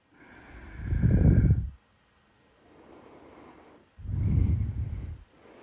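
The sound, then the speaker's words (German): Deep, slow conscious breathing during a guided relaxation: two long, loud, rushing breaths with a softer, quieter breath between them. Broad and airy, with no talk. “Und so nimm auch hier jetzt noch 2 oder 3 ganz tiefe, bewusste Atemzüge. Spür das Einatmen.”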